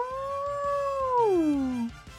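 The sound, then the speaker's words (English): A wolf-like beast gives a long, loud howl, held steady, then sliding down in pitch before it breaks off. “From the position that you are, from the vantage point, you hear like once again like that howl,”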